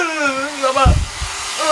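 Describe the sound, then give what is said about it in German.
A hair dryer blows air with a steady, whining motor hum whose tone wavers slightly, joined by a short, low rumbling burst near the middle. “Vielleicht mach ein bisschen Wind dazu und Föhn.”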